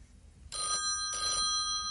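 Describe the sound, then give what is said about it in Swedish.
A telephone bell rings in two short bursts over a steady, shrill high tone, alone with no talk. “Ringa i telefon, sa lillebror.”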